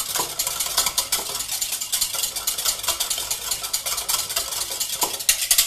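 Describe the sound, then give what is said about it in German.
Small whisk stirring a heaped teaspoon of vegetable broth powder into liquid in a measuring jug, a fast, continuous metallic clinking and scraping against the container, steady throughout with no voices. “geben dort einen sehr, sehr ordentlichen Teelöffel Gemüsebrühe rein. Nehmen uns dafür einen kleinen Schneebesen, vermischen das Ganze.”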